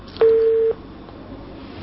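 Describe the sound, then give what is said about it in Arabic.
Telephone line tone after a call is cut off: a single steady mid-pitched beep lasting about half a second over faint line hiss, then quiet hiss, with another tone starting right at the end. “قطع اتصال.”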